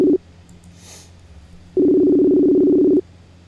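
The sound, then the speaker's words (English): A telephone sounds as a call is being placed: a short buzzing tone at the start, a pause of faint hiss, then one longer steady low buzzing tone of just over a second, heard alone. “So we're dialing him up now, and we'll get him on the line.”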